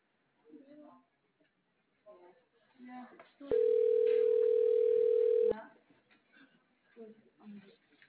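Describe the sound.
A single steady ringback tone sounds for about two seconds on an outgoing phone call. It is a level, mid-pitched hum, with people talking before and after it.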